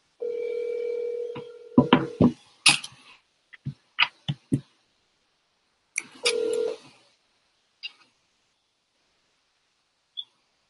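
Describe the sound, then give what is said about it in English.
A telephone dial tone hums steadily, then stops as many short keypad beeps follow at an uneven pace while a number is dialed. A longer tone comes near the middle, and a few isolated beeps trail off toward the end. “So I'm gonna call the number right now.”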